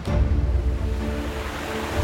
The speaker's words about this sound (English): Oh, no! Water's rising. We need to get higher.